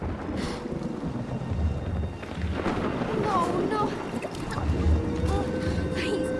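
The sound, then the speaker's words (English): A thunderstorm over a violently churning sea beside an overturned canoe, with lightning overhead. Wind and surging water roar continuously, and deep rumbles of thunder swell beneath them. “The sea starts to churn violently, and lightning forks overhead.”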